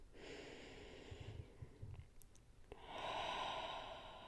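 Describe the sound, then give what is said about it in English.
Slow, deep breathing, quiet and drawn out, with a soft inhale and a sniff midway, followed by a longer, fuller exhale. No one talks. “Deep breaths.”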